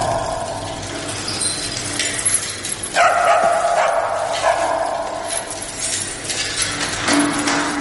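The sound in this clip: A dog barks and yips a few times as someone leads it out of an elevator a couple of floors below in an apartment building. The sounds are fairly faint and short, with no voices.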